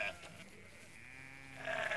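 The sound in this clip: Female sheep bleat at a feeding: a few short, nasal bleats, with a loud one at the start, a lower, softer call in the middle and a strong bleat at the end.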